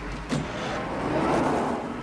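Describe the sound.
A car pulls off with a steady, moderately loud rumble of engine and road noise that swells slightly partway through, marked near the start by a brief sharp knock.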